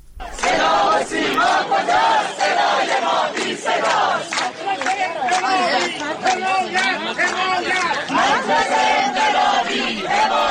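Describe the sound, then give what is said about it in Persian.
Protesting teachers chanting together at a rally in Shiraz, a dense crowd of many voices shouting loud, steady, rhythmic calls that continue without a break. “این صدای تجمع کنندگان در شیراز است.”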